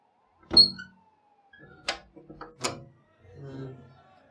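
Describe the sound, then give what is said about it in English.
A window being pushed open: a sharp clunk, then a cluster of knocks and rattles, followed by a softer, lower scraping. “Let's go open the window, baby. Come on. Yeah, here.”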